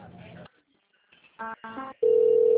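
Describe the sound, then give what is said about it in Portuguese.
A telephone tone sounds while a call to a clinic is transferred: a voice and a few short bursts come first, then a steady, even tone fills the final half-second. “Eu vou transferir a senhora para o setor de convênio, porque esse setor é exclusivo para exames no particular.”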